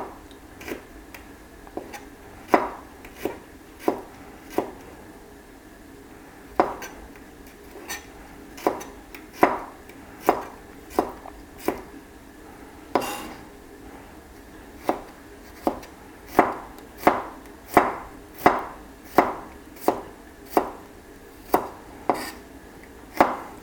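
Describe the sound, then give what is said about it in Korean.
A knife finely chops garlic on a board in a long run of sharp, crisp taps, many strikes at an uneven but steady pace with brief pauses between bursts. “저는 마늘을 좋아하니까 마늘도 잘게 썰어서 여기다 볶아 넣을 거예요.”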